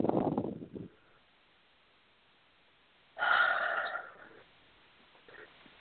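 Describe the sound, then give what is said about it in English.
Breaths taken during a guided breathing exercise: two breathy rushes of air separated by a quiet pause, then a faint third breath near the end. “So that's a good breath, but slow it down.”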